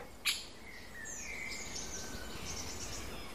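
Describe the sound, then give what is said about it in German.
Birds give alarm calls at a squirrel, with thin, high, whistled notes and short chirps repeating over a steady hiss after a single sharp click at the start. “Und Tatsache haben die Vögel, die wahrscheinlich auch vorhin diese Luftattacken geflogen haben, mir ziemlich genau angezeigt, wo das Eichhörnchen sitzt.”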